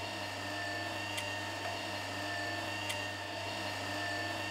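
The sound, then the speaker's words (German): A caravan mover, a motorised manoeuvring aid, moves a caravan with a continuous, even electric motor whine and a couple of faint clicks. “Mover heißt das gute Stück. Eine Rangierhilfe.”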